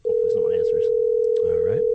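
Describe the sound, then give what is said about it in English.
A telephone dial tone sounds as a call is placed to an office number. The steady, loud, unbroken hum runs the whole time while people talk over it. “All right, let's see if he answers. All right, so this would be. Call in the office number.”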